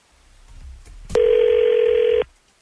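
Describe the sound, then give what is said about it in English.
Telephone call being placed: a brief click, then one steady, mid-pitched electronic tone lasting about a second before it cuts off into quiet. “We're going to call her.”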